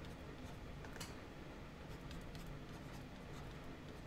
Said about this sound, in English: I'm literally writing out the type grid here.